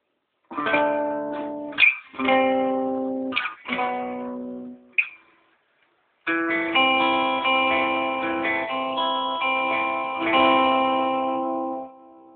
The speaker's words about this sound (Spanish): Okay, este es el sonido de la guitarra limpio, sin delay.